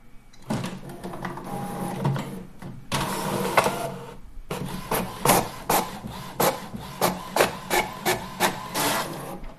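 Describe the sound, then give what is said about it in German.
A printer prints out a screenshot with mechanical whirring and grinding, followed by a long run of many quick, rhythmic pulses as the page feeds through. “Ich mach mal einen Screenshot vom Entführer und dann drucken wir das aus.”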